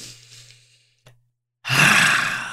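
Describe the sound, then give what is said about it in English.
A deep breath: a soft, airy inhale, a click and a short silence, then a loud, breathy exhale that carries to the end. “So I'm going to take a deep breath”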